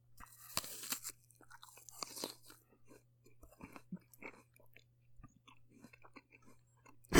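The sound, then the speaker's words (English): A voice imitates someone crunching and eating an apple, making many sharp, irregular crunchy bites and wet chewing clicks separated by quiet gaps, with a sudden loud burst at the very end. “Isn't that a great impression? Yeah. Spot on. Great apple sound.”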